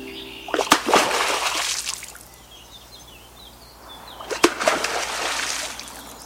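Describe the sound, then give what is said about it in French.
A beaver slaps its tail on the water twice as an alarm signal when an intruder enters its territory. Each slap is a loud, sharp splash that fades into sloshing, with faint bird chirps in the quiet between them. “Ce que vous venez d'entendre, c'est le signal d'alerte du castor qu'il fait en claquant sa queue sur l'eau dès qu'un intrus se présente sur le territoire.”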